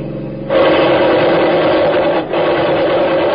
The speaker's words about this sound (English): Give it the gas. We drive right through. I got the machine gun ready.